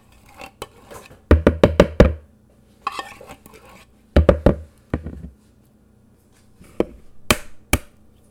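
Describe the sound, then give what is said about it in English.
Eggs being cracked on a bowl for a pumpkin pie: sharp, dry knocks and taps, some in quick clusters of several hits and others as single raps, with quiet gaps between. “That's the sound of an egg giving itself up for our pumpkin pie.”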